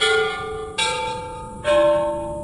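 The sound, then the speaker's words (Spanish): Bells ring out as a sound effect: three resonant strikes, each sustaining and slowly decaying before the next one lands. “¡Que suenen las campanas!”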